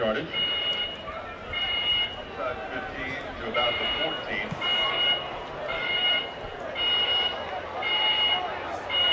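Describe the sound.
A fire alarm sounds in a stadium during a football game, with high electronic tone bursts repeating many times in a steady rhythm while people talk over them.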